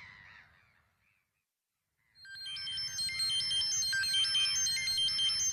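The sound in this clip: A phone ringtone, a repeating electronic melody, starts after a short quiet gap and plays steadily to the end.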